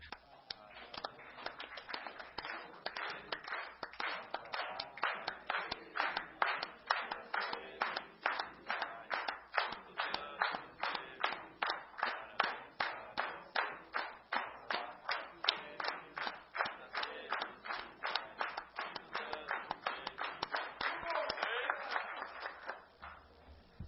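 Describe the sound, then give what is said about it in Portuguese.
A group sings Happy Birthday in Portuguese for a colleague turning 23 during a session, with steady rhythmic hand clapping on every beat under the voices for the whole song. “Como é de praxe, temos um colega hoje de aniversário, Felipe dos Santos Turati, fazendo 23 aninhos, ficando velho, e vamos cantar um parabéns para ele.”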